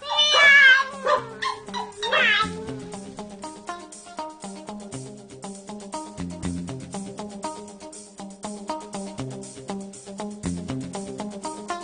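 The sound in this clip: Meowing from a pregnant cat: a few loud, wavering meows in the opening seconds, then quieter sustained tones carrying on steadily underneath.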